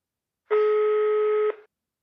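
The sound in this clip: An outgoing telephone call gives a single ringback tone, a steady buzzing hum that lasts about one second, heard alone, then stops abruptly.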